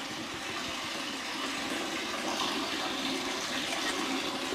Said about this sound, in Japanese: この音聞こえる？やば。じゃあちょっとこの命の水をいただきます。